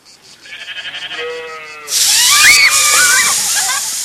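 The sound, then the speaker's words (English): Garden hose spraying water at children in a backyard: a loud, steady hiss of spray starts abruptly partway through, with children's high shrieks and squeals over it, after a quieter pulsing tonal sound at the start. “Sneaking up on her little brothers and sisters, she sprays them with water.”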